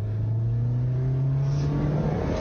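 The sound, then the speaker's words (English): Car engine revving as the driver accelerates, a loud continuous drone whose pitch climbs gradually over the whole stretch, with no talk over it. “She gassing it, too. Crazy, too. Yeah, she gassing it.”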